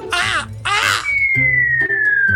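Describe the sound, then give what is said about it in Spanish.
A crow caws twice, loud, harsh and raspy, in two close bursts. A thin, steady whistle tone follows and glides slightly downward to the end. “Muy contento con tantos halagos, el cuervo cantó.”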